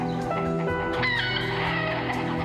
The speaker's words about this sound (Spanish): Pues mete todas las gallinas a tu casa